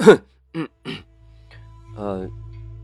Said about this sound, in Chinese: 清了清嗓子，想要圆个场。